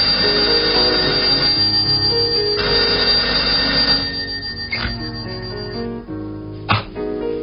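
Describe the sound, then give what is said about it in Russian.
A telephone rings loudly in a room at night, waking a sleeper. The continuous, rattling ring keeps going for several seconds with no voices. “На седьмой день, вернее, на седьмую ночь, когда он крепко спал, в комнате раздался телефонный звонок.”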